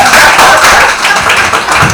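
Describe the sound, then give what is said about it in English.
Audience clapping at a gathering about Ghanaian day names: loud, dense, continuous claps blend into an even roar that holds steady throughout. “Clap for him.”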